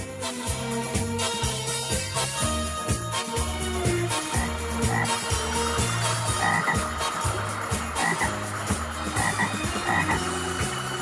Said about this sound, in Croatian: Žablja skupština.